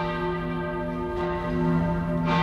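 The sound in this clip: Church bells ring with a sustained, layered metallic tone rich in overtones, fresh strokes swelling over the lingering hum at a slow, steady pace.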